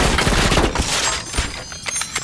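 Gunfire in a shootout, rapid shots crackling in quick, uneven bursts, many sharp cracks packed closely together at a steady loud level throughout.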